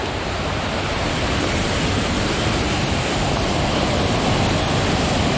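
Steady rushing roar of a waterfall (cascade) along a river bordered by a band of tall trees, a dense, even wash of water noise with no pauses and no voices.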